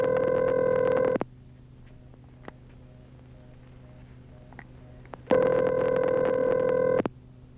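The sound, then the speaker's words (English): Telephone ringback tone on a call to a weather line: two long, buzzing rings separated by a quiet pause. “I dialed it right here. My friend John here is going to give us the weather. John? Hello? Pick it up, John.”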